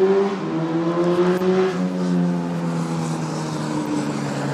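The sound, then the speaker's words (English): Car engines roar while racing up and down a street, a continuous droning growl whose tones step and shift as the engines rev, with no talking. “As you can tell, people love racing up and down the street.”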